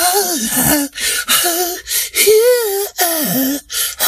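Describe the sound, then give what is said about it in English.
A voice imitates an R&B/soul singer breathing heavily into a microphone: a series of breathy, gasping moans with wavering, sliding pitch, separated by short pauses. “what is that? Why are you breathing in my face?”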